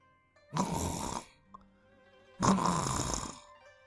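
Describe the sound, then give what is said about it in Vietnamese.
Soft snoring from a man who has drifted into deep sleep: two long, breathy snores separated by a quiet pause, low and rasping, with no talk. “Tiếng ngáy khẽ vang lên.”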